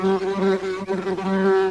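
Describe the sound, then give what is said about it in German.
Honey bees buzz at hives in a school garden at a Berlin secondary school, a steady low droning hum with strong overtones that runs unbroken with only brief dips in loudness. “die wichtigsten Mitglieder sind natürlich die Bienen.”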